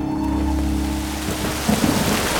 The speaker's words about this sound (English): The storm finally broke over the forest. The rain came down in solid sheets, slamming through the foliage and bouncing back from the forest floor.